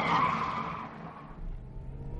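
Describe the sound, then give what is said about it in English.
A car swerving with its tyres skidding: a loud, high squeal that fades over about a second, leaving a low rumble. “She's driving like a maniac.”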